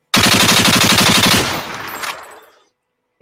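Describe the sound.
Machine-gun fire sound effect: a loud, rapid, evenly paced rattle of shots that runs for over a second, then fades in a long decaying tail, with one small click at the very end.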